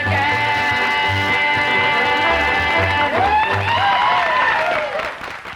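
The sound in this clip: Hand claps keep time in a hillbilly stomp song, under sustained sung and instrumental tones and steady low drum thumps, with sliding vocal lines late on before the music fades at the end.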